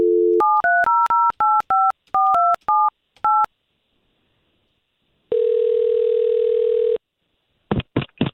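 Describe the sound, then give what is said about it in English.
A telephone is dialed to call a number: a brief dial tone, then a quick string of touch-tone key beeps, a pause, one long buzzing ringback tone and a few short clicks. “So we'll take this number that you gave us, Ed, and we'll call him right now”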